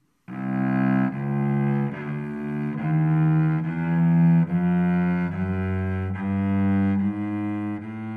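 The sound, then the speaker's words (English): A chromatic scale plays all twelve pitches in order, each a semitone apart: a steady run of sustained, clear musical notes that follow one another evenly at a moderate pace, alone and fairly loud. “the chromatic scale is a 12-note scale that involves all available pitches played in order. It sounds like this.”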